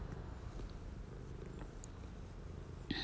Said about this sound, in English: Are you purring? You're going to be on my cast, my purring black cat.